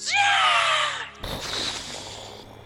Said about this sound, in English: And the bird screams,